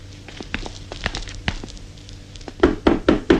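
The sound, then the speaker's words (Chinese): Knocking on a door starts as a scatter of soft taps and thuds, then ends with four louder knocks in an even rhythm. No voices are heard. “开开门，请开开门。我们是安琪尔剧团的，进去看看好吗？”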